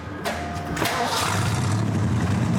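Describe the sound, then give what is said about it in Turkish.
A pickup truck engine started with an added push-button under the steering wheel: short cranking bursts, then the engine catches and settles into a steady, rumbling idle. “Bu kamyonete ekstra bir başlatma düğmesi eklendi. Direksiyon altındaki düğmeye basıyorsun ve hemen çalışıyor.”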